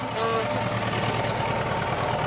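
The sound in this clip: A delivery van's engine drones steadily while driving, a continuous rumbling noise that holds level throughout without clear breaks.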